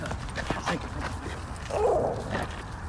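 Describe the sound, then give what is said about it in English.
Dogs fight in a short scuffle, with barks, sharp yips and whining sounds over constant rough background noise. “Sorry about that. I'm keeping dogs from fighting.”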